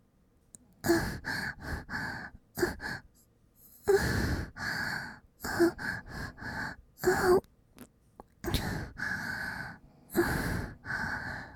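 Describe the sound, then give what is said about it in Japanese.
Deep breathing as someone inhales fully on instruction, several long breathy intakes and sighing exhales in separate bursts with short pauses between them, fairly soft. “いっぱい吸ってください。”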